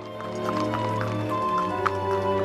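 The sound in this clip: Horses trotting into a park, their hooves making a steady, fairly loud clip-clop over a sustained tonal drone.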